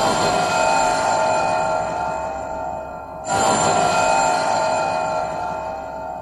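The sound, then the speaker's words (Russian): An electric bell ringing, in a radio drama: two long, loud, continuous rings with a bright metallic tone, separated by a brief gap. “Звонят. Звонят. Я должен посмотреть. Кто это может быть?”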